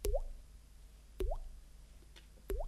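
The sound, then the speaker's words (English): Water drips from cave stalactites into small pools on the ground: three quiet, evenly spaced plops about a second apart, each a short watery blip with a brief upward-bending tone and a soft tail. “They saw drips of water falling down from stalactites, little things of rock that are pointy on the ceiling, and they were falling, drip, drip,”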